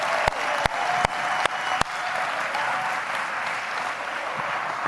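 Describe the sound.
Applause from a small in-person COVID-era crowd welcoming a speaker to the stage: steady clapping with five sharp cracks in the first two seconds, then even, sustained clapping.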